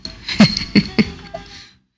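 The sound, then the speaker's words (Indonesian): Three sharp coughs burst out in quick succession, loud and bare, each a short rough explosion of breath, followed by a faint lingering breathy tail and then silence. “Batuk masih batuk malah.”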